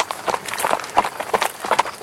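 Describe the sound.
Hooves of horses walking clip-clop along a path, one of them a heavy, plodding mount, in a brisk, steady series of hollow knocks that runs through the whole clip.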